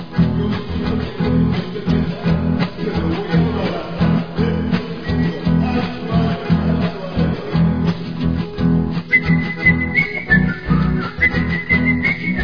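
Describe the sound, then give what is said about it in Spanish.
Someone whistles in a hardware store: clear, high whistled notes in a short run near the end, over a dense, steady background. “Bueno, pero ¿qué significa ese silbido, hombre?”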